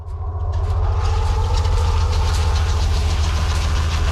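Engine of a Swedish tracked vehicle driving through snowy Norwegian mountains in deep winter cold: a loud, continuous low drone with dense rumbling hum and a faint higher hiss, steady throughout with no voices.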